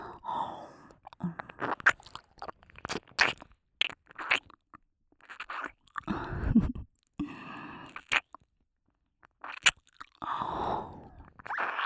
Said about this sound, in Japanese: さて、油断しているお前の左耳をいただきます。